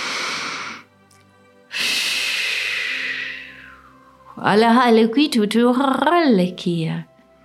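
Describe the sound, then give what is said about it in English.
A deep breath in and a slow exhale, loud and airy: a short rushing intake, then a long breath out that thins and fades away, followed by a voice. “Take a deep breath and release your fear.”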